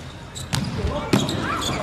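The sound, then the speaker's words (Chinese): Two crisp, light ticks of a table tennis ball during a serve, spaced about half a second apart, over a low bed of hall noise. “看看这一轮的发球，”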